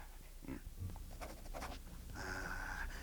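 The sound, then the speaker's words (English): Faint scratching of a pen writing, with a few short strokes followed by a longer scribble over steady background hiss. “I'll write it down. Where's my pen?”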